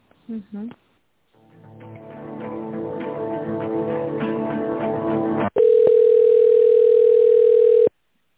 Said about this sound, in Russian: Сейчас я вас переведу на менеджера торговых представителей.